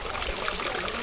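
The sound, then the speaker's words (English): Sewage water gushes through an open trench between blocks of flats in the Kibera slum, a steady, dense rushing and pouring wash of moderate loudness that holds level throughout, with no voices. “That is the sound of sewage water gushing through a trench in the middle of blocks of flats.”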